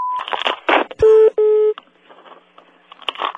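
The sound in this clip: A telephone busy signal: two steady, loud, mid-pitched tone bursts, each lasting about a quarter second or more, with a brief gap between them. People talk before and after the tones.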